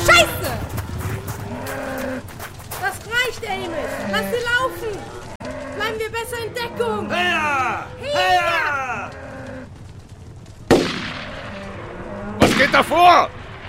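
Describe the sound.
A stampeding cattle herd bellows and moos over a constant rumbling din, with sudden loud bursts near the end.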